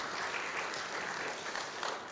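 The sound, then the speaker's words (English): A church audience applauds the pastor for filling in on last week's teaching. The applause is a thick, continuous patter of many hands, holding steady from start to finish. “See, Pastor Jim gets the applause even above and beyond the election.”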